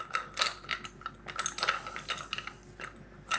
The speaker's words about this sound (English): and I think I'm barely bigger than a 6-inch round, and this is going to be pretty thick. So I'm gonna ratchet it down to the next size.